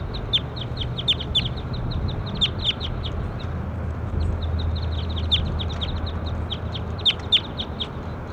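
Many short, high bird chirps and calls repeat irregularly through the whole stretch, sharp and fairly loud, over a steady low background hum.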